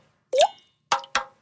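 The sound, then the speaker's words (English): Water drips from leaking pipes as three distinct plops. The first has a quick upward pitch glide, and the last two follow close together after a pause. “Hear that? That's the sound of water coming from leaking pipes.”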